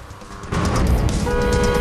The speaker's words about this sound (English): A silver sports car speeds along the motorway, weaving in and out of the traffic.